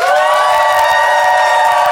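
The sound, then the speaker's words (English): An audience voting by applause in a live debate: loud cheering and whooping blend with clapping in a continuous, strong roar across the whole moment. “So if you think London and Fanshawe and therefore Miriam is in the right, I would like you to applaud now.”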